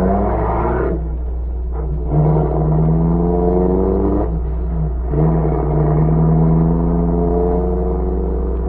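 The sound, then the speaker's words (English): A car engine drones and revs with a shifting tone as the car drives away from a house across from a grocery store. The low rumble stays steady and fairly loud throughout. “the spies, Fortier and Grisanti, came out of the house across from the grocery store and drove away.”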